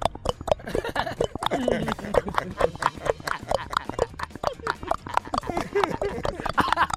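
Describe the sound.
Hurried footsteps of someone running from the police, a fast, continuous patter of hard, clip-clop-like footfalls with talk mixed in.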